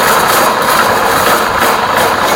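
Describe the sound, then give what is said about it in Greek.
A paper shredder chews through old photocopies, giving off a loud, steady mechanical whirring and rumbling hum that continues without a break and is heard alone, with no voices. “Πιστεύω πως είναι η μηχανή που διαλύουν τα χαρτιά, τις φωτοκοπίες που δεν τα χρειαζόμαστε πια. Α, καταστροφίας χαρτιών.”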